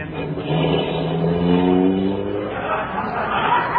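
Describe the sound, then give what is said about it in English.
A car engine revs as the car drives off, a loud droning hum with strong layered harmonics that swells and holds for a few seconds before easing slightly. “you better drive slower, Herky. I'm very nervous.”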